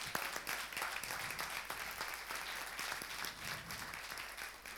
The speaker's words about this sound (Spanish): Le damos un aplauso al discipulado número uno.